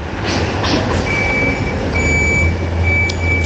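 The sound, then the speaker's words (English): Lorry engine rumbling as it arrives and reverses, delivering the Bayeux Tapestry to the British Museum shortly after 3 a.m., with intermittent high-pitched reversing beeps sounding over the steady low drone. “That's the sound of the Bayeux Tapestry arriving at the British Museum shortly after 3 a.m. this morning.”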